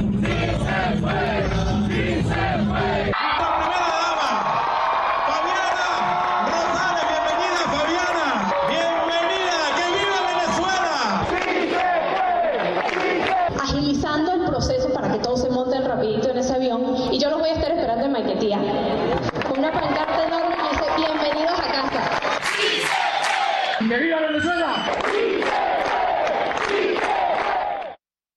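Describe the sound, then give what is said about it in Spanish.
Hundreds of Venezuelan exiles in Peru cheer Fabiana Rosales. A dense, loud crowd clamour of shouting, chanting and excited chatter continues steadily before cutting off abruptly. “Ese es el sonido de Fabiana Rosales en Perú al entrevistarse o al ser reconocida por cientos y cientos de exiliados venezolanos allí en territorio peruano.”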